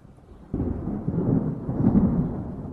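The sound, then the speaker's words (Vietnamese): A thunderclap before a rain shower breaks in suddenly after a brief hush, then rolls on as a heavy, low, rumbling roar that stays strong to the end. “Tiếng sấm nổ báo hiệu một trận mưa rào sắp được đổ xuống.”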